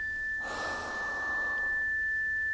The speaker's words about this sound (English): So let's again take a little inhale.